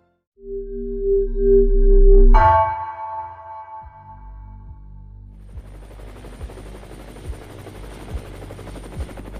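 Lifeliner 1, a trauma helicopter, taking off from VU Medical Center in Amsterdam. Loud steady electronic tones come first, then rhythmic rotor thumps under a rising, broad turbine roar.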